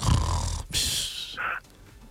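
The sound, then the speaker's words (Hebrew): A voice imitates the snoring of a sleeping wife in the hour before dawn: a few rough, breathy snore-like bursts, loud and alone, ending in a short, higher wheezing snort. “שאדם מדבר עם אשתו, לא? מדבר עם אשתו? אשתו בשעה כזאת נוחרת.”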